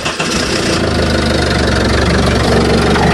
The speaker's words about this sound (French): C'est le bruit d'une moteur de voiture quand elle démarre.